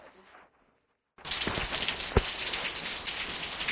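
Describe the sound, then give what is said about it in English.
Rain falling outside, a dense steady hiss of drops that starts abruptly about a second in after a near-silent pause, with one sharp tap partway through. “Yep, it's raining outside. It sounds pretty beautiful, actually.”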